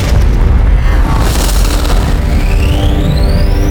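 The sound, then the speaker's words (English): Spaceship weapons fire in a heavy, loud explosion: a sustained booming roar that holds steady throughout, with a high whine rising in pitch over the final second or so. “We have to get back to the TARDIS. Fire all weapons.”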